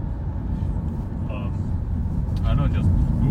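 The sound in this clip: Road rumble of a car being driven by a tour guide in Transnistria: a steady, low engine-and-tyre drone that swells slightly toward the end.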